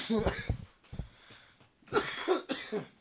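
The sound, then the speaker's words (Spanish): A man coughs in a few harsh, scattered bursts, a lingering cough left over after illness, with brief quiet gaps between the coughs. “ya les pedí otra vez disculpa, sabemos que no estamos todavía al 100, y disculpen la tosifejería que traigo.”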